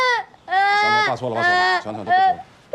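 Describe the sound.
A child crying and sobbing while a father tries to comfort them: several wavering, high-pitched wailing cries in short bursts with brief gaps between them.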